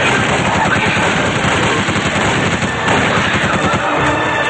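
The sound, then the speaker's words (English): Rapid gunfire from handguns in a film action scene, loud and dense, with shots overlapping continuously throughout. “They fire at the priests. Jonathan grabs Rick's handguns and starts firing as well.”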